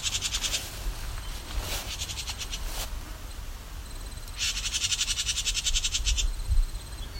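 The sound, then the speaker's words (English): A house wren gives its scolding call, a harsh, buzzy, rasping chatter. It comes in a few separate bursts, the longest near the end, over a steady low background hiss. “Oh, got a house wren. That's a scolding behavior.”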